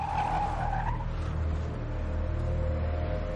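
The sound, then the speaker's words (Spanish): A car speeds away, its tires squealing briefly at the start over a loud, continuous engine rumble that carries on steadily to the end. “Las chicas entran en el coche. El vehículo se aleja.”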